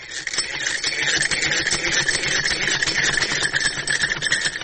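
A sewing machine runs at a tailoring course in Kabul, giving a steady, continuous mechanical whir with a fine rattling texture, moderately loud and unbroken, with no talk.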